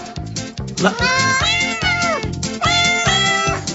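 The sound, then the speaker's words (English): Cat meows set to a Christmas song form a rapid, rhythmic run of many short pitched meows over a steady beat. They sound loud and continuous, with no speech. “Merry Christmas with dogs barking or meowing. That's meowing.”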